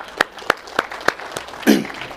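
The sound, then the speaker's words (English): Audience applause in a church service: a few sharp, evenly spaced claps land in a steady rhythm, followed by a brief, fuller burst of sound. “Let's give our pastor another round of applause tonight.”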